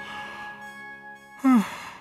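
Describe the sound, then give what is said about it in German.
A hearty yawn from a woman, a short voiced burst whose pitch slides downward, standing out briefly over a steady tonal background. “Bertha Knurr gähnte herzhaft.”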